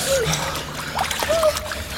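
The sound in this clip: Water splashing as people swim across icy-cold water, a continuous broken churning and sloshing at moderate level.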